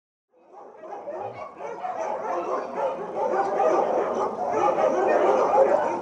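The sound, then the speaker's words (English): White Samoyed dogs bark, yip and whimper in outdoor cages, making a dense, overlapping chorus. It starts quiet, swells within the first second and holds at a steady, fairly loud level. “You can hear the white Samoyeds barking.”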